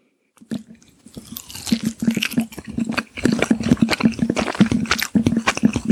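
Chewing of salmon sushi: a long run of moist, squishy bites and crunches in an uneven rhythm, close and fairly loud, with no talk.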